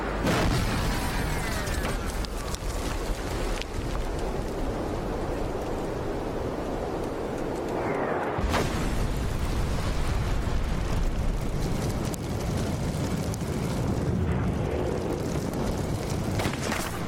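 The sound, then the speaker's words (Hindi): Gunshots fired close by in a combat zone where mortars are in use: a dense, continuous roar of loud blasts and bursts that holds steady throughout, with no voices. “गोली से मारा ना? गोली की आवाज बहुत नजदीक थी, मेरे ख्याल में हमारे आसपास ही है।”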